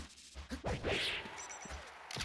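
Jump-cancelled up smash attacks in a video game fighting match: a few sharp whacking impacts mixed with swooshing swipes, moderately loud and dense over a steady game-audio bed.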